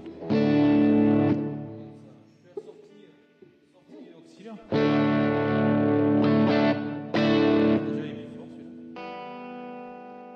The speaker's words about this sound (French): Mustang, mais avec les sons d'origine. Ils mettent vachement de reverb.